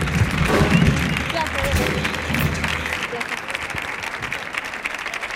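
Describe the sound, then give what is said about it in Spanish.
Audience applause welcoming an Andalusian coach onto a stage: a steady wash of many hands clapping, with people talking over it, easing slightly toward the end. “Fuerte el aplauso, por favor, para Juan Díaz, que va a subir aquí a charlar un poquito con nosotros.”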